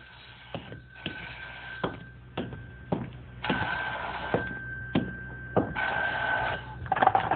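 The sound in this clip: A telephone rings in two long electronic bursts near the end, sharp and steady, after a few dull knocks or thuds earlier in the scene.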